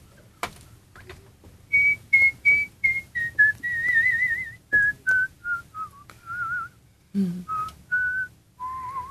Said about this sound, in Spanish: de repente la sorprendemos con un silbido muy bien entonadito